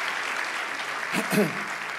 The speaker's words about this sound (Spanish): Vamos, dale ese aplauso.